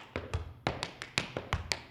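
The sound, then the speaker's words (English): Tap shoes strike out a quick, uneven series of crisp, sharp clicks and small thuds as a college student tap dances for money; the taps are fairly faint and heard alone, without talk. “Tap dancing.”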